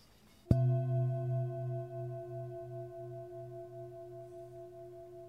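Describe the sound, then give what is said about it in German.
A singing bowl rests on the sole of the right foot of someone lying face down on a therapy couch and is struck once. A long, steady, ringing tone with layered overtones follows, fading slowly and sounding alone. “Und jetzt sitze ich mal die Klangschale auf deinen rechten Fuß, auf die Fußsohle.”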